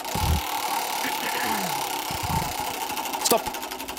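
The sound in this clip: A spinning anecdote wheel on a game show makes a rapid, steady mechanical ticking that runs throughout, with faint voices underneath.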